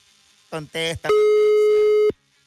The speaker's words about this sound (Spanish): Estamos marcándole, ya.